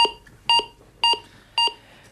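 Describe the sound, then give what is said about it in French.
Electronic beeps from an electrocardiogram in a hospital: five short, evenly spaced tones about half a second apart, each a bright high-pitched bleep with a steady pitch, fairly loud, with no voices. “Quelques bips émis par un électrocardiogramme”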